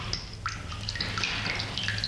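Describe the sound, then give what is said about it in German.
Dripping water tap at home, with several small, bright drops plinking in an irregular rhythm over a faint, steady low hiss. “Sie warten auf den Klempner, weil der Wasserhahn tropft.”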